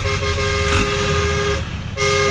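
A truck horn honking in a cheerful greeting: a loud, steady, blaring tone that holds for about one and a half seconds, cuts off briefly, then sounds again over a low vehicle rumble.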